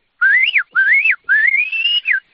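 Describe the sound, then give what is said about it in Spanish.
Shepherd's whistling to call sheep to come: a few loud, clear whistled phrases, each sliding up and falling back, with a longer rising phrase near the end, heard alone. “Mira, por ejemplo, si quiero que vengan, pues les silbaría así.”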